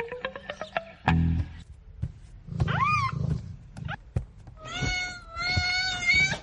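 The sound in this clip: Cat meows from a mother cat tending her kitten: a rising-and-falling meow mid-clip, then a longer, steadier wavering cry near the end, amid scattered clicks and thumps.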